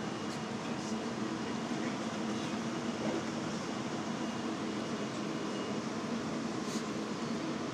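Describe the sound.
Steady rumble and hiss inside a moving passenger train bound for Los Angeles, even and constant throughout with no distinct separate events.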